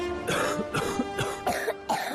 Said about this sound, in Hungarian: A hurutos köhögés legyőzheted Ambroxol Aegisszel